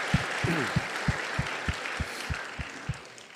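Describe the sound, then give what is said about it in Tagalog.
A church audience claps hands in a steady, evenly spaced rhythm. Each sharp clap carries a low thump, set against a continuous wash of background noise. “If you believe that, clap your hand, please.”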